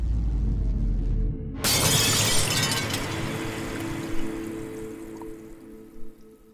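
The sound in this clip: A glass bottle shatters in one sudden loud crash, then a fading spray of tinkling shards and a few scattered clinks as the debris settles.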